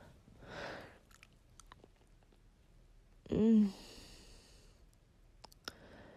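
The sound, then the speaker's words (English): Wet, soft chewing of gum with a few faint smacks and clicks, broken by a brief vocal sound midway, all fairly quiet. “Let me just reach down and grab a little bit of this gum.”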